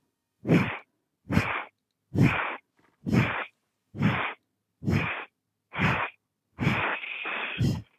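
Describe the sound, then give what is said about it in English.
Forceful breaths out, like blowing out a candle, during a belly-breathing exercise. A series of short, sharp, breathy puffs comes at an even pace and ends in one longer exhale. “It's 10 breaths. Yes. You're blowing out a candle. Make sure your belly narrows with each breath.”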